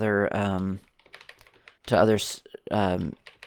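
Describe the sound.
Backspace presses on a computer keyboard make light, quick taps scattered between stretches of a man talking.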